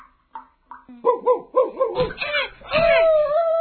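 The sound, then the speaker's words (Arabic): A dog pulled by a rope around its neck and beaten with a stick, yelping and barking: a few short yips, then a run of bending, pained yelps that swell into a long, loud, drawn-out cry. “وكلما أراد أن يجره خالد كان الكلب يصيح وينبح”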